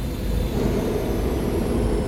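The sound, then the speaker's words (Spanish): A space schooner lands at an inn's dock with a loud, continuous low roar and rumble, steady and unbroken throughout, with no distinct separate events and no voices. “Un ruido estrepitoso llenó la posada.”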